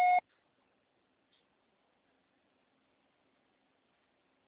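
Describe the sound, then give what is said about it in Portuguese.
A voicemail beep: one short, clean electronic tone lasting about a fifth of a second, followed by near silence. “Sua chamada está sendo encaminhada para a caixa postal e estará sujeita à cobrança após o sinal. Deixe seu recado.”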